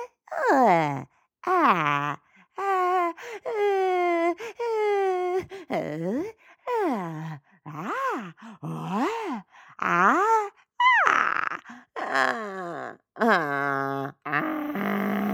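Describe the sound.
A voice imitates a toddler's groaning response with many repeated whiny moans, each swelling and bending up and down in pitch, loud and with no other sound.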